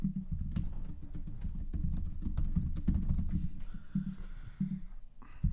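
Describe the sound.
Typing on a computer keyboard while filling in a form: a rapid, steady run of many crisp keystrokes with brief pauses, with no voices.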